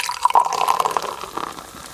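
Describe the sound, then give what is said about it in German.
Cola poured into a glass, a bubbly trickle of liquid with quick gurgling blips and a thin fizzing hiss, busiest in the first second and thinning out toward the end. “Etwa das Geräusch, wie eine Cola-Dose geöffnet wird, wie die eingeschenkte Cola in dem Glas sprudelt”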